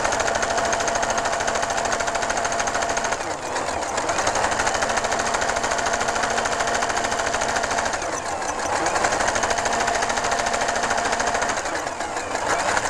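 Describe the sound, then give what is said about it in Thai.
A sewing machine stitches fabric to the end of a seam with a loud, rapid, continuous mechanical rattle, easing briefly in two short slowdowns before resuming its steady pace. “ค่อยๆเย็บนะคะจนสุดทาง”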